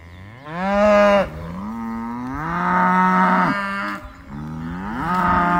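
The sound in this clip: Cattle moo on a pasture where the neglected herd stands by empty water troughs: a few long, drawn-out moos with wavering pitch, loud and continuous, with no voices.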